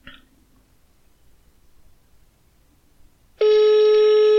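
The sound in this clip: Telephone ringback tone on an outgoing call. Near-silence lasts about three seconds, then a loud, steady tone starts abruptly and holds to the end.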